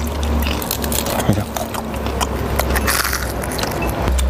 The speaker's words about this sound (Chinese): 炸至金黄酥脆的乳扇又脆又香，油淋牛干巴越嚼肉香越浓，一口乳扇一口牛干巴